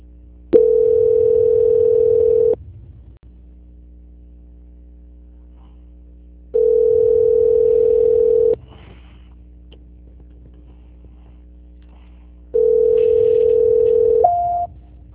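Telephone tone during a call transfer to São Paulo: three long, steady, mid-pitched tones of about two seconds each repeat at regular intervals over a low, constant hum, with no one speaking.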